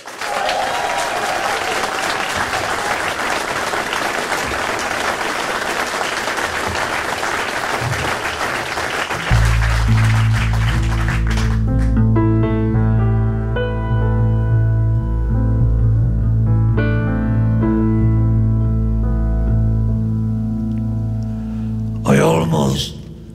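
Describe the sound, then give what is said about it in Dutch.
Loud, warm applause from a concert audience: dense, continuous clapping with cheers for about ten seconds, then a band starts playing with deep bass notes and the clapping quickly fades under the music. “uw bijzonder warm en geweldig luid applaus”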